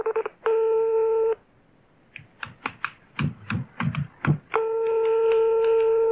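A telephone dials a call to a karaoke bar: a steady tone, then a quick run of uneven keypad beeps, then another long steady tone.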